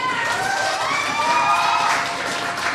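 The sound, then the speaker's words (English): Applause and cheering from the audience at a poetry slam in Otago: steady clapping mixed with whoops and raised voices, sustained at an even level throughout. “One final round of applause for Morning Magpie.”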